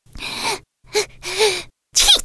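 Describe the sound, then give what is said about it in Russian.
A voice performs a small squirrel's sneeze: a few breathy, hissing build-up breaths, then one sharp, loud sneeze burst at the end. “Задумчиво протянула Белочка и чихнула.”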